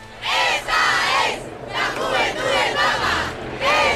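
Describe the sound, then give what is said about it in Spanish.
A large street crowd in central Madrid during a mass event, chanting loudly in rhythmic bursts separated by brief pauses, many voices blended together. “lo primero que queremos escuchar es cómo suena esa calle, cómo está ahora mismo el centro de Madrid.”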